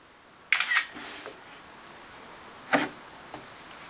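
A camera shutter fires while a photo is taken of two people posing, giving a few short, faint clicks with quiet gaps between them.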